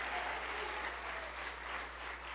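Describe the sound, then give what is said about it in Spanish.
A church audience at a Spanish-language service applauds, a faint, steady patter of clapping that holds evenly throughout. “Denle un aplauso a los que evitan contienda. ¡Aleluya! Dense un aplauso ustedes.”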